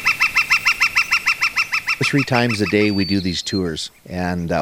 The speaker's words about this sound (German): Das war ein Vogelkonzert am Nympho Lake